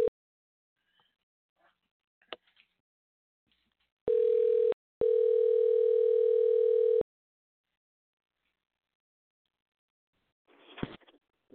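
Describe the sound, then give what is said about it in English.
A steady, mid-pitched telephone dial tone sounds while guests are dialed in: one short burst, then a longer unbroken tone of about two seconds, with faint scattered clicks before it and a brief rustling noise near the end. “All right, let's reach out to Mark and Lorraine. Hang on. Let's dial this in. Ba-ba-ba. There we go.”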